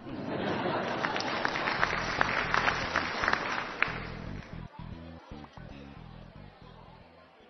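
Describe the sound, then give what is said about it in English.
Canned studio audience applause: a dense, steady wash of many hands clapping that holds strong for a few seconds and then thins and softens toward the end. “This show was recorded in front of a canned studio audience.”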